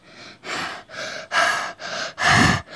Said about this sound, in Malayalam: ഇങ്ങനെ ശ്വാസം എടുക്കുന്ന ഗ്യാപ്പ് കാണും